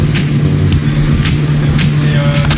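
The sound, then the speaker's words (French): Bugatti racing cars running practice laps at the Circuit des Remparts street circuit in Angoulême, a loud, continuous engine drone with a steady low hum and repeated brief bursts of roaring noise. “nous sommes en direct du circuit des remparts, on l'entend bien derrière avec les Bugatti qui sont là pour les essais”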